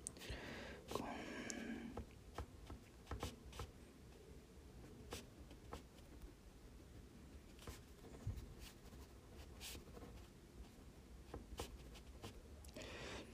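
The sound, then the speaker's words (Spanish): Quiet scratching of someone writing by hand, a continuous run of many small irregular strokes and taps with a few sharper scrapes, alone and soft throughout. “Ya, está escribiendo algún pensamiento.”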